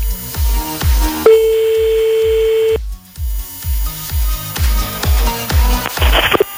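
A telephone line rings during a radio phone call: one steady ringback tone of about a second and a half over a rhythmic music bed with a heavy thumping beat.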